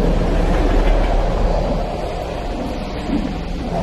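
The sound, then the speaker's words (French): A metro train runs in a film scene with a steady, loud rumbling roar that eases slightly partway through and then continues evenly, with no voices. “Il vient d'être identifié dans le métro. La rame fait deux arrêts, à la 20e et à la 33e.”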